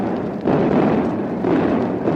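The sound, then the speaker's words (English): Artillery batteries firing in a heavy barrage: a loud, continuous low rumble of overlapping booms with no clear separate shots, swelling slightly after the opening moment and staying dense throughout. “Artillery batteries, fire!”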